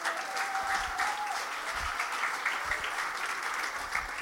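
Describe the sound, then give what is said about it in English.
Audience applause welcoming a speaker: steady, dense clapping from many hands, sustained evenly across the whole stretch at a fairly low level. “Could you put your hands together, please, and welcome Jack.”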